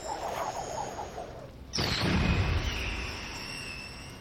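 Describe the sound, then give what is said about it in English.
A magic missile spell sound effect from a tabletop role-playing game: a sudden loud booming burst lands partway through and gives way to a sustained hissing, rumbling tail. “A little late, but there's the magic missile.”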